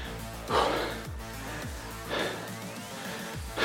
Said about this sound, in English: So you can tell, I mean, I'm out of breath.